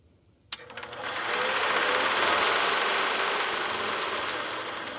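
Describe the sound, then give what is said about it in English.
A film tape being cranked to play it gives a sharp click, then a loud mechanical whirring rattle that builds and holds steady with rapid, even ticking throughout. “let's review the tape. I'm cranking it up. Crank getting it. Getting it ready. I'm cranking it.”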